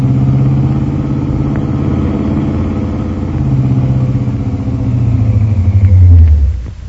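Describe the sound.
A car engine putters around a corner with a low, steady rumble. The rumble swells slightly near the end, then drops off abruptly.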